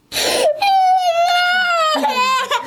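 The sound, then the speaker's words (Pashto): A small child crying in one long, loud, wavering wail, then a shorter second cry after a brief catch of breath. “الیاس دی راپور لري چې د یوه کوچني په ږغ پیلېږي”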